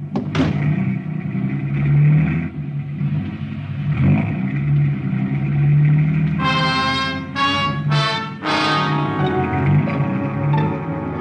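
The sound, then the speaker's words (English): Car engine driving through the downtown streets of Bangkok: a steady low rumble that swells and eases throughout, with a few brief harsher bursts near the end, no talk over it. “Lum drove us right through the downtown district of Bangkok toward the palace”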